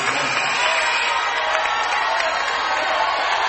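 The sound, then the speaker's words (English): Basketball arena crowd at Pruitt Hall reacting as a freshman player fouls out, a loud, steady roar of crowd noise and applause that holds at an even level from start to finish. “the entire crowd knows it as Keelan Dietrich fouls out. He is a freshman from Cincinnati, Ohio. And Pruitt Hall is letting him know that he just fouled out of this one.”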